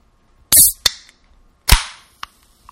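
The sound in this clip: Gas hisses from a pressurized soda bottle as it is opened in a sink: two short, loud bursts of hiss, each fading quickly and each followed by a sharp click, with a faint tick at the end.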